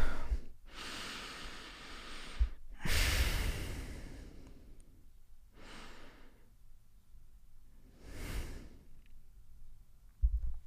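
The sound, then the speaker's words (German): Slow, deep breaths are drawn and released during a guided breathing exercise, a few soft, airy swells of breath separated by quiet gaps, faint and unhurried with no talking. “wir nehmen nochmal die ein, zwei Atemzüge.”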